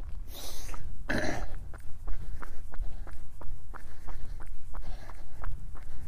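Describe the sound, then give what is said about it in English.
Footsteps of a person jogging along a hilltop ridge-line trail: many even, rhythmic footfalls over continuous steady background noise, with no talking. “Back to a little jog.”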